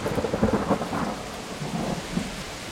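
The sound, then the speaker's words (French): A violent thunderstorm with rain: low rolling thunder rumbles under a constant hiss of heavy rain, staying fairly even in loudness throughout, with no voices. “Ils étaient là depuis un certain temps, déconcertés par la violence de l'orage”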